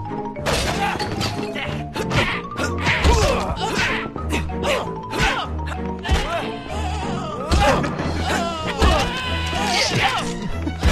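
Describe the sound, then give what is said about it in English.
Skeletons and other monsters in the video game Ghoulies being struck with furniture or pool cues: many loud whacks and smashes mixed with wavering, pitch-sliding creature cries. “you can also grab furniture or pool cues, whatever, and swing them at skeletons and other monsters who sound like this.”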